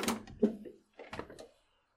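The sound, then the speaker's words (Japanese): A window being slid open, heard as a few short scraping and knocking bursts with a pause in the middle, moderately loud and with no talk. “少し窓を開けるか。よいしょっ”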